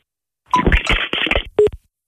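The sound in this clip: A telephone line after the caller has hung up gives brief electronic beeps. Rough line noise and crackle sit between the tones, then one clear beep sounds near the end before silence.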